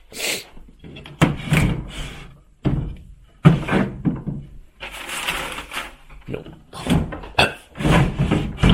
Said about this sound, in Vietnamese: mở từng cái tủ ra coi.